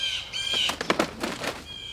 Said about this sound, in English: another bird attack! Better get ready to dodge.